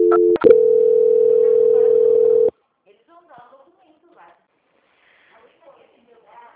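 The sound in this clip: A telephone line tone while a call is being transferred. A brief click and short beep lead into a single steady, even tone lasting about two seconds, which then cuts off, leaving only faint, scattered voice sounds.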